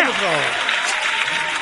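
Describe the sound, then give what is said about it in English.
Applause fills the moment as a steady, dense wash of clapping, with a voice speaking over its opening. “A fucking round of applause for Carla.”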